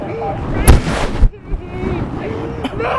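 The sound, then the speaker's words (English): A gunshot fired at a person during a confrontation: one sharp, loud blast followed by a rush of noise, then a fainter crack later, with people's voices and wind buffeting on the microphone throughout. “No, he shot at you. He pointed a gun at my face.”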